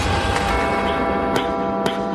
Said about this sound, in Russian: Когда мы выходили из аптеки, на вечевой башне грянул колокол.